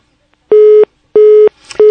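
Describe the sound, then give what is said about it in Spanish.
Telephone tones as a phone call drops: three identical steady beeps, each about a third of a second long, repeating at even intervals, loud and clean, with a short burst of noise just before the third. “Se cortó la llamada con Luis.”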